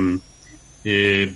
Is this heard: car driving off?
no